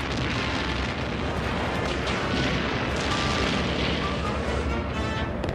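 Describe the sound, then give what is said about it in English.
An enemy spacecraft fires on the land and destroys buildings, heard as a dense, unbroken wall of booming blasts and rumbling roar that stays loud and even throughout, with no pause between the impacts. “an enemy spacecraft appears in the sky and starts firing on the land and destroying buildings.”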